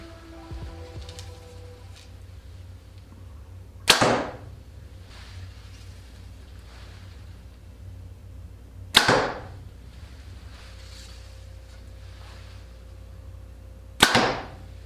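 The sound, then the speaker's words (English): Three arrows shot from a Hoyt Ventum 30 bow, each a sharp crack with a short decaying tail, about five seconds apart with quiet between. “I hope you had as much fun as I did shooting the new Ventum 30 from Hoyt. This bow was a great shooting bow.”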